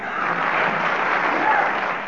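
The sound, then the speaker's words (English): A studio audience gives a short round of applause as encouragement. The clapping is dense, steady and fairly loud, and lasts about two seconds on its own. “I'm going to ask the audience to give you a little bit of applause to encourage you.”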